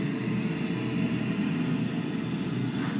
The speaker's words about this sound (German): Jetzt hören wir auch dieses helle Signal, das ist Kavitation am Propeller. Jetzt ist es direkt über uns und jetzt fährt das Fahrzeug weg.